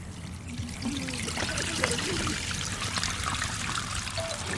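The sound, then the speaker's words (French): Petrol trickling as it is poured from an oil bottle through a garden hose, a faint, steady splashing dribble that runs continuously without clear breaks. “c'est un tuyau d'arrosage qui ressemble fortement à un tuyau d'arrosage. Un flacon d'huile dans lequel est contenue l'essence, donc est versé.”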